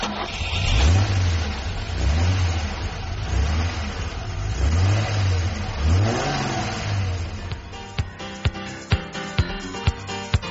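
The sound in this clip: A car engine revs hard while still cold in several rising and falling surges, loud and alone with no talk. A run of sharp, separate clicks follows near the end.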